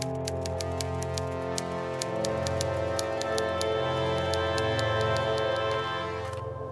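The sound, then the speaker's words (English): Typewriter keys strike in quick, fairly regular bursts of crisp clicks, layered over sustained background music for several seconds. “Where's my typewriter? I must get to work! Would you like a drink, Fifth? Gone. Well? I must write.”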